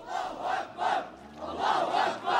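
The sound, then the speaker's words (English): A crowd of a couple of hundred men marching to a funeral in Saqqa, a Damascus suburb, chanting together in loud, repeated rhythmic bursts that rise and fall in a steady pulse. “This crowd of a couple of hundred men is on the way to the funeral here in Saqqa, one of the suburbs of Damascus.”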